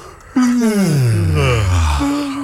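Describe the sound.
Group of people yawning together on cue: a loud, drawn-out moaning yawn opens sharply and slides down in pitch, overlapped by other voices, with another yawning voice rising near the end.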